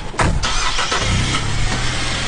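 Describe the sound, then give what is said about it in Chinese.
Supply vehicle's engine cranks and catches loudly, then settles into a steady low idle as the vehicle leaves a military camp loaded with a week of food for a mountaintop sentry post. “物资全部装车后，记者也跟车出发了。”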